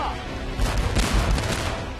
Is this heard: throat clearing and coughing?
no